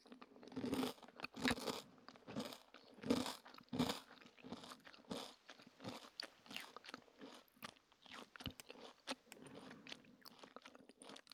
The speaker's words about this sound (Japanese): 私普段こういうのあんま食べなくて、今初めて食べたんですが、